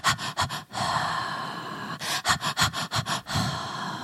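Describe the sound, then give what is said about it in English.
A person imitates a newborn's periodic breathing with quick runs of short, huffing breaths that alternate with long, steady breaths. The pattern goes fast, slow, fast, slow, with no speech. “Babies, normal babies breathe fast and then hold their breath in slow.”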